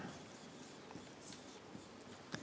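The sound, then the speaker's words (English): Handwriting: a faint, steady scratching of a writing tool as something is written down, with a few soft taps scattered through it. “So let's just write that down. I'll just write it down as humility.”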